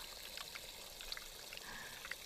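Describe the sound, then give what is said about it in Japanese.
Water runs steadily from a tap while hands are washed with soap, a faint, even hiss and trickle that carries on for the whole clip. “爪の間もしっかり手首まで洗うんですよ。ゴシゴシゴシゴシ。”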